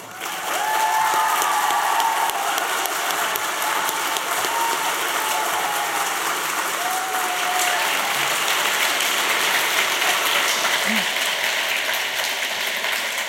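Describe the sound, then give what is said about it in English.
An audience applauds to welcome author Jacqueline Wilson onto the stage, a long, sustained roar of dense clapping that stays loud and even for about thirteen seconds. “let's give a big, warm welcome to Jacqueline Wilson.”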